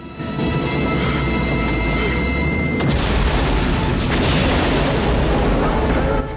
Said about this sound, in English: The Jeep is thrown upwards on a roaring cloud of explosive fire.